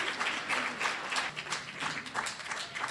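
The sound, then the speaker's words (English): Audience applause rolls on steadily at a show, a dense patter of many hands clapping at moderate volume with no voices over it. “You don't have to keep applauding.”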